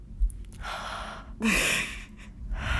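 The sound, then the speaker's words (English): Audible breath intake from a voice teacher: breathy rushes of air rising to a sharper, gasp-like inhale, fairly faint, with no clear words. “That's wrong because it shouldn't be an audible breath.”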